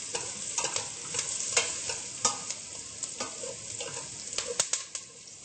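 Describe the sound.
Onions frying in a pan, a soft continuous sizzle broken by many faint scraping and clicking stirs at an irregular pace, quiet throughout with no voices.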